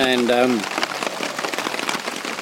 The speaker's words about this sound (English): it started to rain, and it hasn't stopped. So it's now 11 o'clock the next morning, and I'm basically just waiting for the rain to let off a little bit.